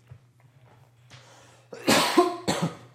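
A person coughs as their throat catches, giving two harsh, loud bursts, the second shorter, after a stretch of near quiet with a low steady hum underneath.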